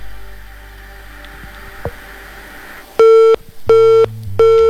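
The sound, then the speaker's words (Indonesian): Phone line tone after a caller is cut off on a call-in line: three evenly spaced, steady electronic beeps, loud and flat in pitch, following a stretch of faint line hiss and a single click. “Terputus kembali pendengar, kita tunggu penelpon selanjutnya.”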